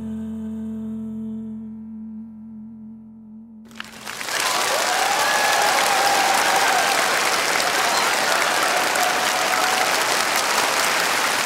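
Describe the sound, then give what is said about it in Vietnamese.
Audience applause bursts in after a sung phrase with music ends, becoming a loud, dense, steady wash of clapping at a concert that carries on without a break. “một tràng vỗ tay thật là lớn ạ”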